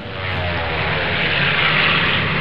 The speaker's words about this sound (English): They had dive bombers which would dive directly at American ships. Then just above the ship, they would release a bomb. And fly fast back up into the sky.